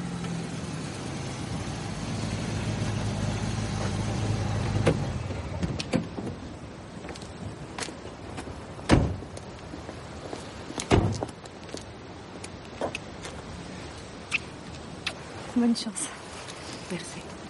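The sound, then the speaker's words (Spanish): A car in a drama film pulls up to a sidewalk, its engine running steadily and then cutting off, followed by a few sharp door thuds and clunks as people get out. “Más tarde Elen lleva a su amiga en el coche, se paran en una acera y salen del vehículo.”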